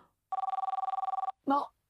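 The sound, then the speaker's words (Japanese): A telephone bell rings in one rapid, even burst of bright metallic trills lasting about a second. A short voice follows right after the ring. “電話。”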